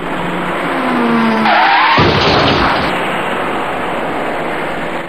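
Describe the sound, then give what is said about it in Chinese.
A small white passenger car drives up to a T-junction with loud, continuous road and engine noise. A brief tire screech rises over it early on. “很快一辆白色小客开了过来，您注意看。”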